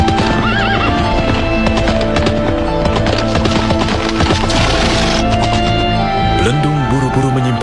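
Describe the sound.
Horse hooves clop steadily throughout as a horse is put into its stable, with several loud whinnies mixed in.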